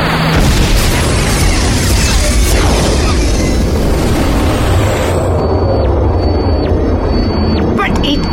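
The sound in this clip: A space cannon powers up and fires in an audio drama effect, a loud, sustained roaring blast with booming bursts and sweeping tones that thins out toward the end.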